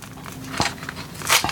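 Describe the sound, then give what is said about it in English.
Crinkling and rustling of packaging as a box of DC hybrid trading card packs is opened, with two sharper crackling bursts over a soft, steady background and no talk. “We'll go through one box here and we will open this together.”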